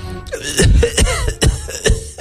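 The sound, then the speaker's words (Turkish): A voice imitates coughing with several rough, hacking bursts in quick, uneven succession, loud and with no words spoken. “Öksürmüş.”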